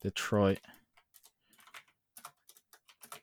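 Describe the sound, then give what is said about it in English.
Typing on a computer keyboard: many light, scattered key clicks in irregular bursts, preceded by a brief voice at the start. “I can't even type.”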